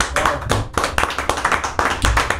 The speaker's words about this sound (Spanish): Yo creo que me merezco un aplauso.